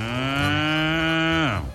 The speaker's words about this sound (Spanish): Imagínense que el niño jalando la vaca para llevarla donde el toro.